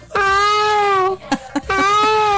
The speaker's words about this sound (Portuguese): Ah! Que isso? Oxi! E não é leão, não. Virou um gatinho, foi.